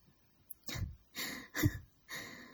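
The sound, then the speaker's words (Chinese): Labored, struggling breathing: four ragged, gasping breaths with short pauses between them, soft and breathy, preceded by a tiny click. “现在的声音是什么意思啊？呼吸困难，被脚踩在脸上搞得不能呼吸了。”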